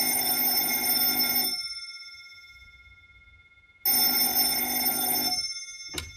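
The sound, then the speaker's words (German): A telephone bell rings twice, each ring a long, loud, bright metallic trill separated by a quiet gap, followed by a brief clipped start of a third ring. “Noch am gleichen Vormittag klingelte bei Lorenz Mettler das Telefon.”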